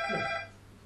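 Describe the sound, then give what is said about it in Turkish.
A mobile phone rings, heard as one short electronic ring tone with bright, steady overtones. It cuts off after about half a second and fades into faint background noise. “Adem abi beni cepten arıyor.”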